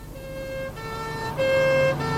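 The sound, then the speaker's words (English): A police car siren wailing in a steady two-tone pattern, switching between a higher and a lower pitch and growing louder near the end. “Could we have the siren off and stop the blue light flashing?”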